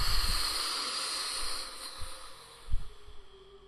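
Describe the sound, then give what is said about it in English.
Breath blown slowly out through the mouth during a relaxation breathing exercise for easing anxiety, heard as a steady, airy hiss that gradually thins and fades, with no talk. “Bring it down and out through the mouth. Blow.”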